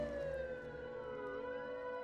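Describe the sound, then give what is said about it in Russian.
A police car siren passing below sounds a faint, continuous wail, its pitch sliding slowly down and then climbing again, with no voices over it. “переждал, пока стихнет сирена полицейской машины, проезжающей внизу”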